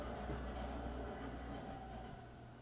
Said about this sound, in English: That was the cleanest subway cars I've ever seen. That's Canada.